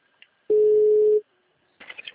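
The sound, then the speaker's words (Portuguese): A single steady telephone ringing tone sounds while a call is being placed. It is a mid-pitched hum lasting under a second, standing alone against near silence. “Tô ligando aqui pra ele, tá?”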